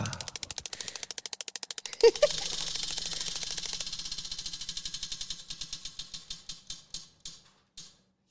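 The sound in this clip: A prize wheel spins with a rapid, regular run of clicks that slows and spreads apart until the wheel stops.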